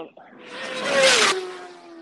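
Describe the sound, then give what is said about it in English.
A racing motorbike passes at about 140 mph, a single roaring whine that swells to a peak and then drops in pitch as it fades. “How fast are those bikes going by right there? So they're coming by at about 140 miles an hour, and they're going into that corner”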